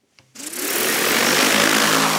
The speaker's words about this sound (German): Statt mit schweren Landmaschinen das Feld zu beackern, fliegt Anfang August eine Drohne über die reife Sommergerste auf einem Versuchsfeld der Schwäbischen Alb.